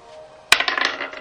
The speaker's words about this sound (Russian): Natural 20. Какой у тебя хороший кубик.